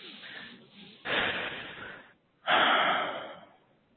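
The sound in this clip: Deep breathing during a guided meditation session: a faint breath, then two long, loud, airy breaths with a slight wheezy rasp, separated by a brief pause.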